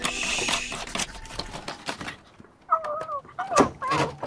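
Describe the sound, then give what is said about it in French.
An owl calling at dusk: a few wavering, quavering hoots that stand out clearly after a stretch of broad rustling noise. “Écoute. Oh, là, un hibou. Ou une chouette.”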